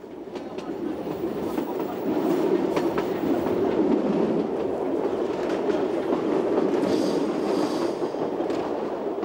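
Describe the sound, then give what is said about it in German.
A train pulling into the Ponte Leccia junction station on an island rail line gives a steady, fairly faint rumble with a rhythmic clatter of wheels on track and no voices. “Wir fahren ein in Pontelleccia, das ist der einzige Knotenpunkt dieser Bahn.”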